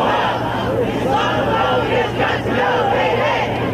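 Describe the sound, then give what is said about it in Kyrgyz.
Protesters shout outside the White House in Washington, about a thousand people rallying for refugees and demanding their release. A loud, dense mass of voices chants and yells together without pause. “Борбор Вашингтондо 1 000 адамдар Ак Үйдүн сыртына чогулуп, аларды кое бергиле деп кыйкырышып, биз баарыбыз мусулманбыз деген жазууну дагы көтөрүп турушту.”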